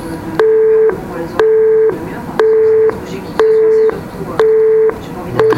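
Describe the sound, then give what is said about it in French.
A telephone busy tone after the other party hangs up: six evenly spaced, loud, steady mid-pitched beeps about a second apart, the last one cut short. “C'est comme s'il décrochait, qu'il me raccrochait au nez. Mais là, il me répond plus.”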